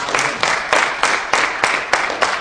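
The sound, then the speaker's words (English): Rhythmic unison clapping from an audience at a religious gathering: eight sharp, evenly spaced claps in a steady beat, each with a short decaying tail. “Since God chose you, give yourselves a big round of applause.”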